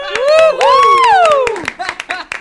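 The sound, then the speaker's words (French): Audience clapping on a French comedy joke show: sharp, quick claps run throughout, with a loud, sliding vocal whoop rising and falling over the first second and a half. “Vous pouvez applaudir, les filles.”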